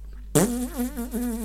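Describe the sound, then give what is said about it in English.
A voice imitates a dry fart with one short, raspy, buzzing sputter that starts abruptly and wavers in pitch for about a second. “it's like a dry fart, bro, that like stinks, but you have like no enjoyment when the fart comes out.”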